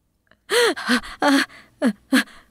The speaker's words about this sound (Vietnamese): Bà ngồi bật dậy, thở hổn hển như vừa được cứu lên khỏi dòng nước lũ.